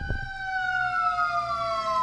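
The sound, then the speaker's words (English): Emergency vehicle siren wailing as it passes, a loud, unbroken high tone that drifts slowly lower over about two seconds, with a short low rumble at the start. “And there's the sirens right on time on BikeSport Radio.”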